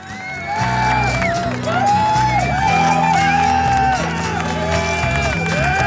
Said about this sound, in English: Please may we have a big hand. Well, actually, no, make that two big hands, or otherwise this ain't going to work, for Nantes-based authors Romuald Olivier and Olivier Roubin.